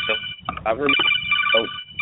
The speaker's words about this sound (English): Sorry, that was a phone call.